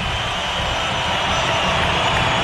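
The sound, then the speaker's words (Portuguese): Stadium crowd noise as a corner kick is taken from the left at a Palmeiras–Corinthians football match: a dense, even roar that holds steady throughout, with no distinct voices or pauses standing out. “Esta em escanteio, lado esquerdo, Andreas Pereira. Olha a reação da torcida, ó.”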